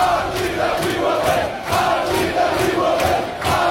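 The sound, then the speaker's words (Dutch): A fanatical US soccer supporters' group yells and chants: many voices shout together loudly and steadily, rising and falling in rhythmic repeated swells with short dips between chant phrases. “Maar ze hebben eigenlijk meer yells en chants. Daar moeten ze het van hebben. Gelukkig hebben de American Outlaws, dat is een hele fanatieke supportersgroep, die hebben er een heleboel online gezet.”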